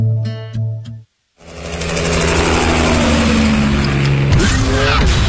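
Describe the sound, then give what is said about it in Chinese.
A V8 all-aluminium petrol engine in a sports car with full-time four-wheel drive roars loudly and steadily, shifting in tone near the end. A brief tonal passage and a short silence come before it. “车身线条大胆前卫，配备 V 八引擎，全时四驱系统，全铝汽油发动机，最高时速超过每小时300公里。”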